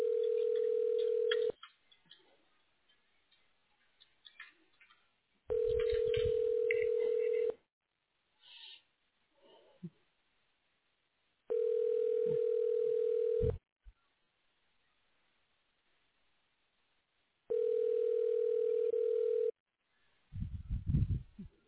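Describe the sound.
Telephone ringback tones on a line after a call is transferred to a hospital radiology office: four long, steady, faint tones of about two seconds each, evenly spaced by quiet gaps with soft scattered noises.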